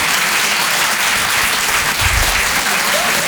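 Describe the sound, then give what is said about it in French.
Audience applause at a Paris comedy club evening show, a dense, continuous clatter of clapping that holds steady and fairly loud from start to finish. “public, vous pouvez vous applaudir très très fort”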